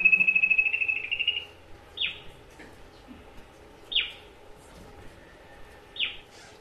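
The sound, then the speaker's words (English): Bird calls heard before daylight on a forest hike to a canopy walkway: a rapid pulsed trill opens, followed by three short, high descending notes spaced evenly apart, over a faint steady insect drone. “One of the birds we saw on the way.”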